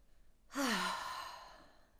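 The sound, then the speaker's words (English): A deep breath let out through the mouth during a guided breathing exercise, heard as one long voiced sigh that starts suddenly, falls in pitch and fades into a soft airy exhale. “just join me in taking a nice deep breath in through the nose. Let it out through your mouth.”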